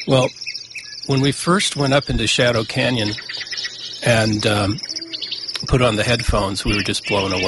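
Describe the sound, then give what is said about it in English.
A dawn chorus in Shadow Canyon, with a great horned owl, a yellow-breasted chat and lazuli buntings, chirps and trills continuously beneath a person talking over it. “So what you're hearing here is a great horned owl and a yellow-breasted chat and some lazuli buntings, and this is really truly the dawn chorus.”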